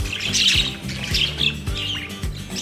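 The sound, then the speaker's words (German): A budgerigar gives repeated bright chirps and short squawks. The calls fall in a few clusters over a low, rhythmic pulsing backing. “Welches Tier suchen wir? Ich sag es dir. Es ist der Wellensittich.”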